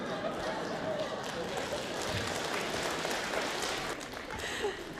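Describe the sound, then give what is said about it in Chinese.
Audience applause at a crosstalk comedy stage show in Beijing: steady, dense clapping that holds at an even, moderately loud level for the whole stretch without pause. “来再次掌声鼓励一下。”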